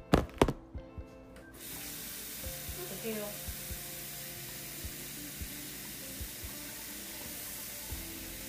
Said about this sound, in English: I'm messing with these flowers that I got. They dry now.